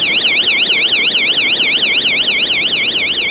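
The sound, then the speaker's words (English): A subway exit's emergency door alarm sounds as a loud, high electronic warble, sweeping rapidly up and down in a steady repeating cycle that never pauses. “That's the alarm on the emergency door at the subway exit.”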